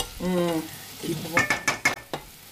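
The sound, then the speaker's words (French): Butter melting in a pan gives a soft, steady sizzle, joined by a short voice early on and then several sharp clinks of a utensil stirring against the pan. “On entend un petit peu. Ah. Là, il y a beurre qui fond, là.”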